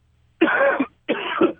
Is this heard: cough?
yes